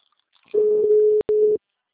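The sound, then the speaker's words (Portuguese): Telephone ringing tone of an unanswered call: a steady mid-pitched electronic tone lasting about a second, broken by one brief gap before resuming, with nothing else heard. “The number is not answering.”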